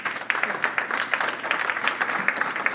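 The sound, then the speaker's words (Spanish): Applause for the Lord during a church sermon: dense, steady clapping from many hands, with a continuous crackling texture of overlapping claps that holds at an even loudness for about three seconds. “denle un aplauso al Señor”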